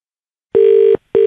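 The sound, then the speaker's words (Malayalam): Ringback tones for an outgoing telephone call: two loud, steady, mid-pitched beeps with a short gap between them, the second cut off at the end. “ഞാൻ കൊച്ചി ആകാശവാണിയിൽ നിന്ന് വിളിക്കുകയാണ്”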